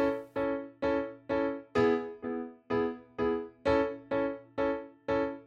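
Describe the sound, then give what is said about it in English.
A first-inversion A major chord with C sharp in the bass alternates with a second-inversion E major chord with B in the bass. The two chords repeat many times at a steady, even pace, each struck and left to decay, with no voices. “But instead, there's a C sharp on the bottom for the A chord and a B on the bottom for the E chord, so it sounds like this.”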